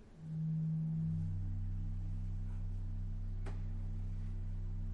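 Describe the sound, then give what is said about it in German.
A deep pipe organ register holds a sustained low tone that enters just after the start and stays steady and even to the end, heard alone. “Noch so ein tiefes Register, das klingt so.”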